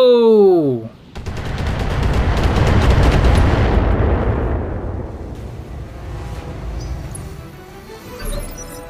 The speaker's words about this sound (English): We're getting hit by missiles. Systems holding.